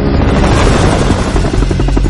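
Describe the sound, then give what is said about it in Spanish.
A helicopter with a searchlight makes a loud, steady roar of rotor and engine, a dense, continuous drone with a fast chopping pulse throughout. “El foco del helicóptero ilumina el coche de Cortés.”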